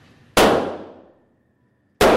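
Gunshots hit a target during firearm target practice. Two sharp, loud bangs sound alone. The first rings out and decays over about a second before the second cracks near the end.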